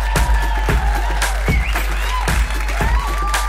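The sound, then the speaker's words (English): Audience applause and cheering welcome a comedian onto a stage, a dense, loud wall of clapping that runs without a break for the whole stretch. “Please give it up for Gina Yasharay!”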